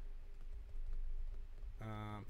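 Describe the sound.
Keyboard typing as names are entered into a computer during a live show, with faint rapid clicks over a low hum, and a voice briefly starting near the end.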